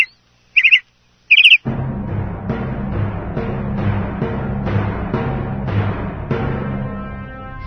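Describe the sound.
Birds chirping and calling: two sharp chirps, then a continuous, dense bed of bird calls.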